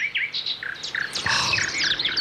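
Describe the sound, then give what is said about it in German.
Birds chirp outside on a morning, a busy stream of short, high, bright tweets and trills overlapping one another at moderate loudness, with no voices present. “Man wird ganz sachte geweckt von diesem herrlichen Vogelgezwitscher draußen.”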